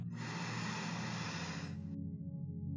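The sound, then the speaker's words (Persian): A slow, deep breath in through the nose during a guided meditation sounds as a soft airy hiss lasting about two seconds. It ends abruptly, while a faint low sustained drone continues underneath. “آروم آروم یه نفس عمیق با من بکش دم”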